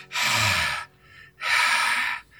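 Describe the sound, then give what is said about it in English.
Two long, rasping breaths voiced by a person imitating a ghost's breathing, each a harsh, breathy swell separated by a short pause, loud and alone. “You hear this breathing”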